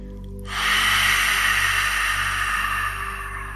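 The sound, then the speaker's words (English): A long, slow exhalation through the mouth during a relaxation exercise. It is a steady, breathy hiss that starts after a brief pause, holds for about three seconds and eases off slightly near the end, over a constant low hum. “Exhale out any worry you might be feeling with an extra long exhalation through the mouth.”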